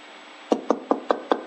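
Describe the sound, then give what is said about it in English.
Knocking on a door: five sharp, evenly spaced raps in quick succession, clear and alone against a faint steady background. “The old lady at the door knocked.”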